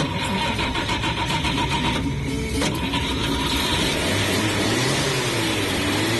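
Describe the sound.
A car engine roars loudly and continuously, with a steady mechanical drone whose tone climbs as the vehicle speeds up on a road trip.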